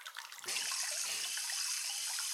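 Hot water runs into a bath in a steady, even rushing flow that starts abruptly after a short spell of lighter trickling and keeps going without a break.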